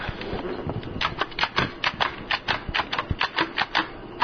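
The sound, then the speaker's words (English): A Jotadot braille writer hangs around the user's neck and punches dots into paper with many sharp, dry clicks. The clicks come in an uneven rhythm that grows more regular and distinct toward the end. “that's the sound of the Jotadot as it's hanging around my neck.”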